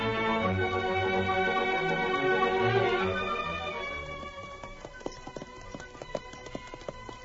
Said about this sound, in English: The girl held her mount to a trot as the trail began to climb.